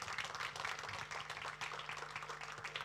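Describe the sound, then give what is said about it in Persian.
Applause from an audience in a church: a steady, dense patter of many hands clapping, faint and even throughout. “بریستیم یه دست بزنیم.”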